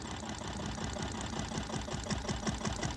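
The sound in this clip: A tractor engine runs with a steady, rapid mechanical chugging that stays even and fairly faint throughout, with no voices.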